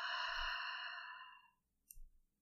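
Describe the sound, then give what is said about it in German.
A long, voiced exhale during a breathing exercise, steady and fairly loud for about a second and a half before tapering off, followed by a faint short breath. “Atme tief ein. Halte die Luft an und atme lange aus.”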